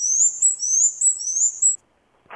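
Black-and-white warbler song: a quick run of high, thin two-note phrases repeated steadily for under two seconds, heard alone, followed by a short pause and a faint brief sound.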